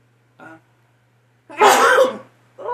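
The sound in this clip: A single loud, harsh sneeze bursts from a person with allergies, preceded by a brief faint intake and followed by the start of another vocal sound.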